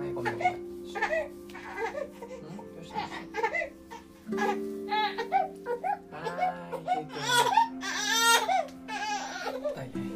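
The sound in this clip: A baby cries in repeated high, wavering bursts while an adult voice talks and soothes over it, with a steady low hum underneath throughout.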